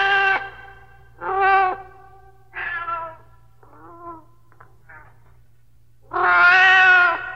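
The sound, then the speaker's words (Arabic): A cat meows repeatedly in loud, clear, harmonic cries. Three meows come in quick succession, then two fainter, shorter mews, and finally a long, drawn-out meow that is the loudest of all. No one speaks. “مواءها يناديني فأسرع إليها فتقترب مني وكأنها تقول أطعميني”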